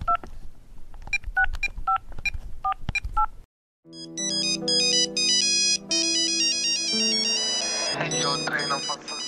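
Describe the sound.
A phone call being placed: a quick run of electronic dialing beeps, a brief silence, then a bright, continuous ringtone melody of stacked repeating tones at a loud, even level.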